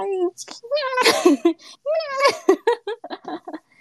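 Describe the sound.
A person's voice imitates a pet cat's early-morning meowing with a few drawn-out, wavering meows, mixed with giggling and quick chatter.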